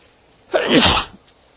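A single human sneeze, a sharp noisy burst lasting about half a second, alone without talk.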